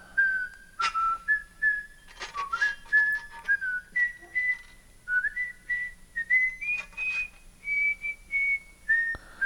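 A melodic whistled tune plays alone, made of short sustained high notes with small pitch glides between them. It is fairly quiet, with brief pauses between phrases.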